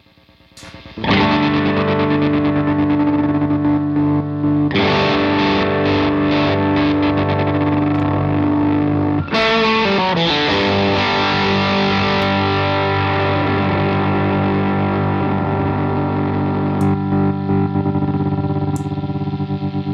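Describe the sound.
Overdriven electric guitar from a Stratocaster through a Helix overdrive patch, playing a few sustained distorted chords that ring out and blend into one another at steady loudness, with no talk.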